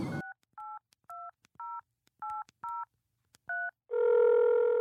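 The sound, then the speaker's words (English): Telephone keypad tones dial a call: several short, evenly spaced two-tone beeps with brief gaps, followed by a louder, steady sustained tone that runs to the end. “Should we call him right now?”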